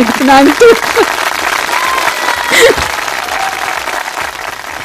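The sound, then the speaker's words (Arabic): Studio audience applause at a youth radio station, a dense, loud clapping wash that continues for several seconds, with voices calling out over it near the start and again midway. “هاي تصفيقة”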